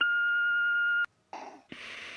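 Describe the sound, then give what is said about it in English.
An answering machine beep after a voicemail greeting. A single clear, steady electronic tone holds for about a second and cuts off abruptly. After a short gap come bursts of muffled line noise. “I can't come to the phone right now, but leave a message after the tone and I will call you back as soon as I can.”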